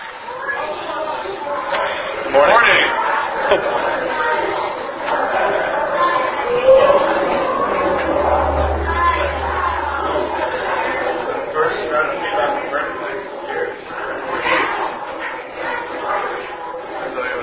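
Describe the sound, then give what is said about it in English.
A church audience stands and greets one another at a morning service, with many overlapping voices chatting at once in a steady, lively hubbub. “go ahead and stand up and greet each other this morning”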